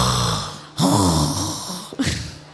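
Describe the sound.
A few breathy, forced exhales, each with a raspy, snore-like voiced tone, coming in loud pushes with short breaks between them.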